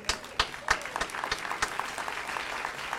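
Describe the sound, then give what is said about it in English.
An audience at a church service applauds to welcome a speaker. The dense clapping opens with a few sharp, louder claps and settles into sustained, even applause. “Would you please stand to your feet and put your hands together and welcome Dr. Daniel Gilbert.”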